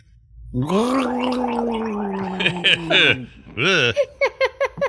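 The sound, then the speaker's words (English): Voice imitating a fallen orc's dying gurgle in a tabletop role-playing game: a long, throaty, gargling groan holds for a few seconds, then a wet, choking burst and a rapid string of short gurgles trail off. “As you're stabbing the second one, this is the noise the fallen orc makes.”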